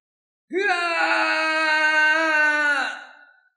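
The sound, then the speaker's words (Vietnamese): A man's anguished scream of pain, a single loud sustained cry of about three seconds that holds steady, then tapers and dips in pitch at the end. “cho đến khi Quỷ Lệ hét lên một tiếng đau đớn, xé nát tâm phế.”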